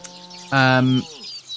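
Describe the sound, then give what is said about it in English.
Birds tweet amid grazing wild livestock. A sustained, tonal call rings out for about half a second, followed by thin, high chirps that trail off quietly. “You can hear the birds tweeting, the wild livestock grazing.”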